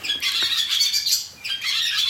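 Barn swallows calling as they wake: a busy, continuous twittering of high chirps and squeaky warbles from several birds, with a short lull midway.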